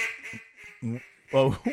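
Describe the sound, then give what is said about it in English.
Duck quacking from a duck call device during waterfowl season: a few short, raspy, nasal quacks, the later ones louder, over a faint steady hum. “That's the sound of waterfowl because it's waterfowl season.”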